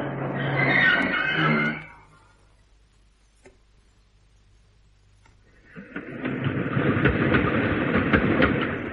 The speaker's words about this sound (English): Oh, sorry, that's my train. Oh, and mine.